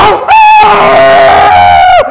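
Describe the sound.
A voice imitating a dog howling at the top of its lungs: one long, loud, sustained wavering tone that holds steady and dips slightly in pitch at the end.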